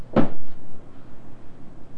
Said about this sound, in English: Opening that drawer.